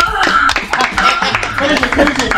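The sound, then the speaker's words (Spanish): Loud, uneven clapping from a small group on a radio show celebrates a recently married father. Sharp claps come in an irregular patter mixed with people talking. “Pero ahora un aplauso sincero, ¿no? Ahora sí.”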